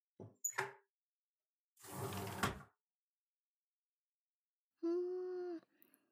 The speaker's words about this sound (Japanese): では、窓を全部開けて。